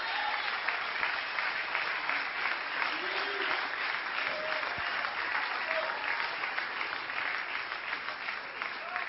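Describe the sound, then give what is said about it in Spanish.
A church audience applauding, with dense, steady clapping from many hands that holds at an even level throughout and gives a bright, continuous patter. “Denle un aplauso a Cristo y continúo.”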